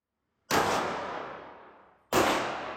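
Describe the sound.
Two loud pistol shots at a shooting range in Santiago, Chile, each a sharp crack with a long fading echo tail. The second shot comes about one and a half seconds after the first.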